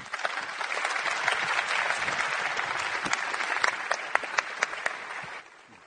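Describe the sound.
Audience applause welcomes a speaker: a steady, dense wash of clapping with sharper individual claps toward the end, continuing strongly for about five seconds before cutting off abruptly.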